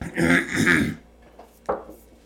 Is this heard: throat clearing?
yes